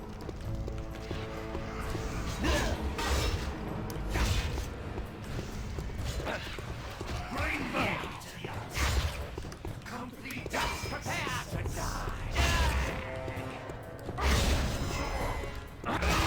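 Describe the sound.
Sword slashes chop through branches in a video game, with many sharp, loud hits landing in quick succession over a dense, busy bed of game sounds.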